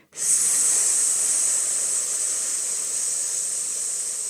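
A long, steady hissed S exhale as a person breathes out through the teeth during a pelvic floor breathing exercise. The bright, even hiss starts abruptly and lasts about four seconds, easing slightly toward the end.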